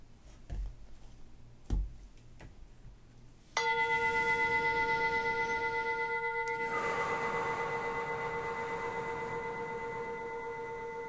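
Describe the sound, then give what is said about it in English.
A meditation bell rings out once, marking the start of the session. Its steady, pure, ringing tone slowly fades over several seconds, after a few soft knocks and taps. “when you hear the bell, this is your time to get comfortable”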